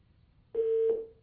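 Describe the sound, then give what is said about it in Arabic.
A single telephone line tone as a caller is cut off from a phone-in show: a steady, mid-pitched beep lasting about half a second, then fading out over quiet line noise. “طيب انقطع الاتصال لا بأس، معنا مكالمة أخرى”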